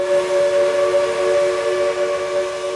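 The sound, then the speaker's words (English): A steam locomotive's whistle on a tourist railway in Cass, West Virginia, sounding one steady, sustained chord-like tone for the full few seconds at an even, moderately loud level. “So when you hear a steam whistle a mile away,”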